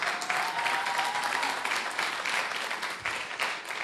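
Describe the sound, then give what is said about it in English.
An audience applauds the speaker's parents at a morning gathering. Dense, crackling clapping from many hands runs fairly steadily for the whole clip and thins slightly near the end. “Can we give them a round of applause real quick?”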